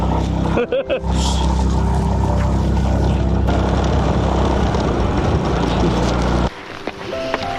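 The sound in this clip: A motorcycle engine strains on a steep slope, a loud, continuous, rough drone with voices over it, which drops away abruptly near the end.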